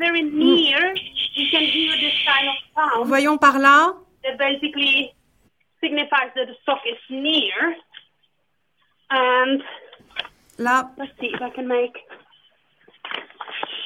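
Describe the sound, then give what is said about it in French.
A sock-finding device gives bursts of bright electronic beeping to warn that the seeker is close to the hidden sock. The bursts come in irregular groups separated by short gaps, with brief talk. “Comme elle est probablement très proche, on peut déjà entendre ce bruit qui avertit qu'on chauffe.”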